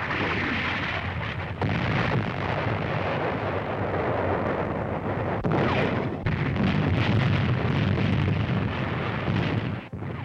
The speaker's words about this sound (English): American artillery finds targets with an accuracy that astounds the Germans.